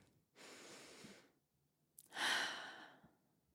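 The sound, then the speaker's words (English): A deep breath: a soft, airy breath in, then after a short pause a louder, sighing breath out that fades slowly. “feel free to take a deep breath with me.”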